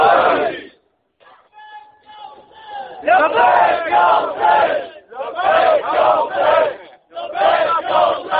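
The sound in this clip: A crowd chants a unison religious response to a slogan, starting with a loud shouted burst, then a quieter pause, then several strong rhythmic waves of massed voices.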